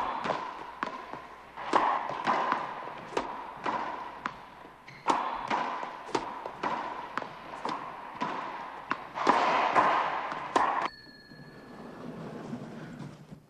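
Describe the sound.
A racquetball game knocks out many sharp thuds of the ball striking walls and racquets in a fairly steady, brisk rhythm, each hit loud and punchy with no voices heard.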